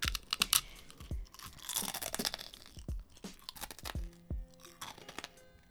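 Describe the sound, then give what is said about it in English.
Crunchy cookie being eaten: many sharp, crackling bites and chews come in irregular bursts, crisp and close, with no talk. “It seems that ASMR is continuing. I didn't want to eat my cookie.”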